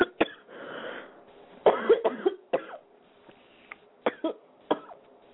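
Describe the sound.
Coughing from a person who has choked after something went down the wrong way: a loud fit of harsh, irregular coughs with short gasping pauses between bursts.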